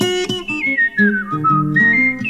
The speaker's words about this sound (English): Walking down the street, just whistle my blues away.